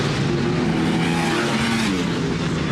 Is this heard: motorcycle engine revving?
yes